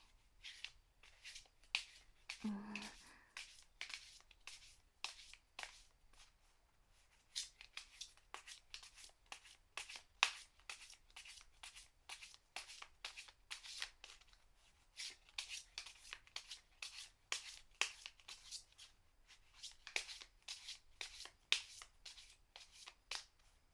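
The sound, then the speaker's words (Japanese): Tarot cards being shuffled by hand, a long run of many rapid, crisp card-riffling strokes in an irregular rhythm, heard alone with no voices. “まずは、もう一度カードをシャッフルして、”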